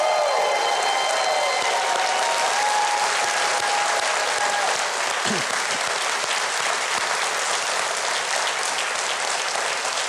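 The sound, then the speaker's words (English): A studio audience applauds as a 105-year-old World War II veteran in the front row is welcomed: dense, continuous clapping at a steady, loud level from start to finish. “I want you to give a big, big welcome to our favorite audience member ever, Ned B. Kent”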